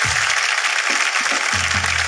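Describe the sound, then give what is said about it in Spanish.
Applause: a steady, dense wash of clapping that holds at an even level from start to finish. “Un aplauso para ella, listo, ya está.”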